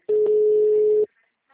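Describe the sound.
A single steady electronic telephone tone as an unanswered call goes to voicemail, holding one flat mid pitch for about one second before cutting to silence.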